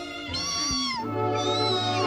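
Cats meowing inside a house: drawn-out, wavering cries, loud and clear with overlapping calls and no talk.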